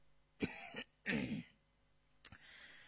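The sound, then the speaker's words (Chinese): A man's dry cough: a few short, harsh bursts with brief gaps between them and no speech around them. “干咳了一声”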